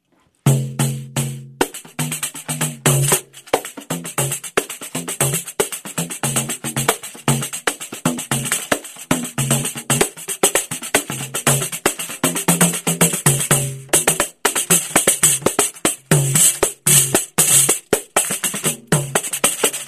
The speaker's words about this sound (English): This tambourine that I brought with me today is called a pandero, and it's a pandero is how it's spelled, but it's a pandero.